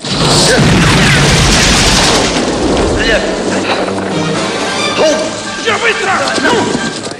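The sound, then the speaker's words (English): Guards open fire in a Rambo film scene, producing loud booming gunshots and crashes in a dense, continuous barrage, with voices mixed in. “Guards spot Rambo around a corner and fire.”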